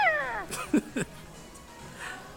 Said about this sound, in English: Is it a household cat? Yep.